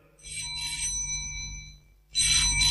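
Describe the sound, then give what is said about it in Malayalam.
A telephone rings in the early morning as two bright, high electronic ring bursts separated by a brief pause, over a faint low hum. “ഫോണിന്റെ bell കേട്ടാണ് രാജമ്മ ഞെട്ടിയുണർന്നത്.”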